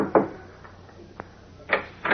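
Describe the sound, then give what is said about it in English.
Knocks land on the door of a ground-floor apartment in a tenement hideout, a few dull, spaced raps over a quiet background. “Resuming his guise of Clark Kent, he knocks at the door of the ground floor apartment.”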